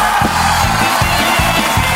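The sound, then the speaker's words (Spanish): Applause and cheering from a crowd form a dense, steady wash of noise, with regular low thumps pulsing underneath throughout. “Un aplauso para Escuela de Conductores GO.”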